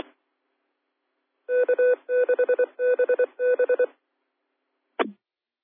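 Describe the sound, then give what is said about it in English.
A telephone rings in four short trilling bursts, each a rapid warbling pulse of tones, then after a pause a single brief chirp; no voices are heard. “Anyway, got a phone call here. Going to run here pretty quick.”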